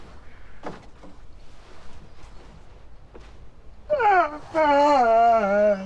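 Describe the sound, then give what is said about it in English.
A man sobs while overwhelmed with emotion. The wavering, moaning cries grow loud and drawn out in the last two seconds, after a stretch of faint, scattered sounds. “Still sobbing, he removes his jacket.”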